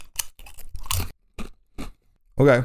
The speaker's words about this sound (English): Okay. That actually tastes like kind of like a really dry nacho. Like you got a bit of a cheese flavor on there and definitely some sliced jalapenos